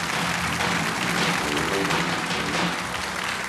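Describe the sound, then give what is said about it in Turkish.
Audience applause breaks out for the performers at a Turkish folk music gathering, a dense, steady wash of clapping that holds at an even level from start to finish. “Hadi ustalar alkış.”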